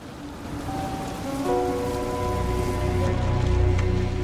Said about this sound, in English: Later, rain has started to fall